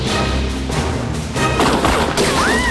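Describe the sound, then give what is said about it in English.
A gunshot shoots out the rear window of a fleeing car, with sharp bursts and a smashing crash breaking through a loud, dense background of sustained tones. “Aiming at Mark and Marie's car, he shoots out the rear window.”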